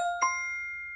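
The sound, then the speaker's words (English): A bright chime dings to mark a correct answer: two quick metallic tones struck close together, then a clear pitched ring that holds and fades slowly. “And by the way, that's the sound of someone getting the answer correct.”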